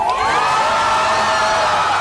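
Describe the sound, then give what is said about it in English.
A crowd in Tel Aviv cheers as Hamas releases Israeli hostages: loud, continuous cheering with rising whoops and shouts throughout. “Cheers erupted in Tel Aviv as Hamas released three more Israeli hostages.”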